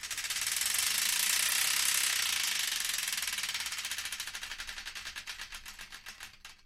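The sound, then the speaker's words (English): A spinning prize wheel's ratchet clatters in a rapid, buzzing stream of clicks. The clicks gradually slow into distinct, evenly spaced ticks as the wheel loses speed, and the sound fades toward the end. “it's once again time to give that wheel of destiny another spin.”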